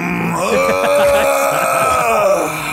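A big human yawn, drawn out and voiced with a groaning tone. It swells upward, holds a steady pitch for about two seconds, then tapers off.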